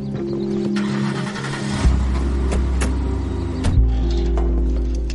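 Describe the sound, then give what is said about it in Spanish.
A black car drives off from a country estate: a steady low engine rumble with a couple of louder surges as it pulls away. “Suben al coche negro de Dark y salen de su finca.”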